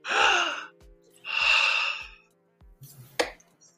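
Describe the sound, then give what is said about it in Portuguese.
A speaker imitates a dying man's forceful last exhale with two long, loud, breathy outward breaths separated by a short pause, followed by a brief sharper breath sound. “Sabe o que é expirar? Isso aqui, ó.”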